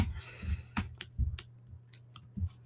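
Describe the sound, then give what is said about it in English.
A dog eating: faint, irregular crunchy chewing and many sharp clicks of teeth over a steady low hum. “Got some dog eating ASMR. I don't know if you can hear my dog eating right now.”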